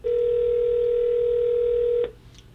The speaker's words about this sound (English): Let's make this call. All of a sudden, we got some activity. Let's dial it up. Here we go.